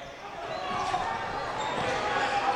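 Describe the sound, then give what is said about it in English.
A basketball is dribbled on a court during a game, its bounces set against steady crowd noise, with voices in the background. “dribbling to the left”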